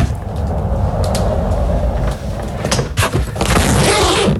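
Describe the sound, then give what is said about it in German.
A rolling suitcase rumbles along on its wheels in a loud, continuous low roll, followed by sharper clicks and brighter rustling as it is opened. “Ja, das ist dein Rollkoffer. Du bist mit deinem Koffer entlang gerollt und hast ihn dann aufgemacht.”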